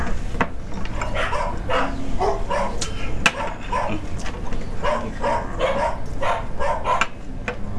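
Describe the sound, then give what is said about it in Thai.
A neighbour's dog crying out while being hit, with many high whimpers, yips and yelps over a constant noisy background. “เสียงเหมือนหมามันร้องเลยนะคะ อ๋อหมาคนข้างบ้านน่ะ ผู้หญิงข้างบ้านเขาตีหมาตัวเองอะค่ะน่าสงสารมากเลยค่ะ”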